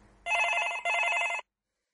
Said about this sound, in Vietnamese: Có tiếng điện thoại vang lên trong phòng bác sĩ.